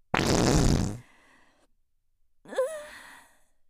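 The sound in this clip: A loud, rough fart bursts out for about a second, followed after a pause by a short squeaky, pitch-bending tail, with no talking.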